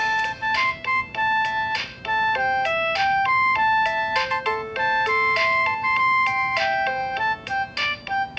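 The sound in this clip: A built-in demo song (Demo A) plays on an electronic keyboard: a bright synthesized melody of quick, steady notes over a lower accompaniment, continuous and fairly loud, with no talk.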